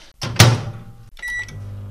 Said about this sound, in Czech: A díváme se, mikrovlnku máme ve výši očí, máslo se rozpouští lehce, povoluje, je takové jako unavené v té misce.